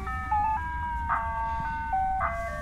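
An ice cream truck's electronic jingle plays as the truck slows and brakes to a stop: a steady, bright melody of sustained tones with short chiming accents, over a low engine rumble.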